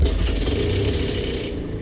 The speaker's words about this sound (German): Zum einen zum Tuk-Tuk.